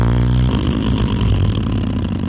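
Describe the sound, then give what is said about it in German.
A truck delivers and dumps ready-mix concrete into a large hole. A low, humming engine tone gives way after half a second to a rough, broad rumble that continues steadily. “Dann kommt aus der fernen Stadt ein LKW und protzt den wohlfeilen Fertigbeton ins große Loch.”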